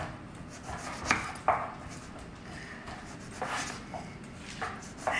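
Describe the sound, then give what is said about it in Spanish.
A knife slices a washed, unpeeled eggplant into thin rounds. A few soft, crisp cuts come at an uneven pace, with faint rubbing and scraping between them. “Cortamos la berenjena en rodajas así, bastante delgaditas.”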